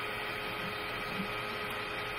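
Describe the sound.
A printing machine running with its print bed in motion gives off a faint, steady mechanical whirr. The hum is constant, with thin sustained tones in it and no breaks or pauses.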